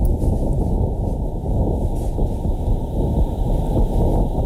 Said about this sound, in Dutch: Ja, dit is van 2 jaar geleden. Toen heeft de NASA het geluid van de wind op Mars opgenomen. Stofstormen dus.